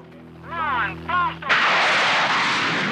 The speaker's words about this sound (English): the car blasts off, races up the ramp, and is airborne.